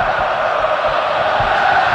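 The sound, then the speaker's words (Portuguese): A packed football crowd roars at Neoquímica Arena during a match, a dense, continuous wash of many voices that holds an even, loud level for the whole two seconds. “Ouça o público aqui na Neoquímica Arena.”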